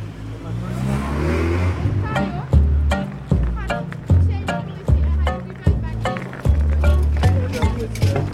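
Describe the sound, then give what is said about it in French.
A small hand truck loaded with copies of printed reports rolling along, a steady rumble broken by regular clunks about every half second, over a background of voices. “Ce qu'on entend là tout à l'heure, c'est le bruit du chariot, du petit diable qui transporte les exemplaires du lobby tour Paris spécial COP21 qu'a fait l'Observatoire des multinationales et Corporate”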